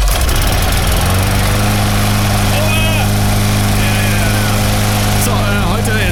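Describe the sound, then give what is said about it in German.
A lawn mower engine running, a loud, steady droning hum with strong low harmonics that settles into a constant note after about a second and holds throughout. “Wir sind noch viel zu früh zum Rasenmähen.”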